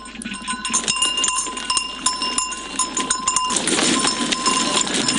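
Dairy goats on a hillside farm in Lintong, Xi'an, in cold December: a dense, continuous herd din with steady ringing bell-like tones, fairly loud and unbroken throughout.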